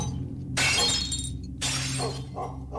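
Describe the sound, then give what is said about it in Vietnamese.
A flower vase and a plate of fruit fall from an altar and shatter on the floor: two loud bursts of breaking, then a fainter clatter of debris over a low, steady hum. “Cái lọ hoa cùng với đĩa hoa quả để ở trên ban thờ bất ngờ rơi xuống nền nhà vỡ tan tành.”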